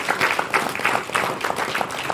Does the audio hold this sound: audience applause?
yes